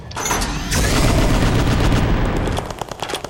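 Bombs explode in a video game: a dense, loud, sustained rumble of blasts that then breaks into a series of sharper crackling bursts as it fades.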